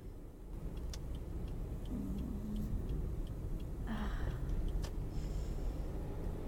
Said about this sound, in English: Baby, I think you're going a little over the speed limit. You might want to ease off the gas there.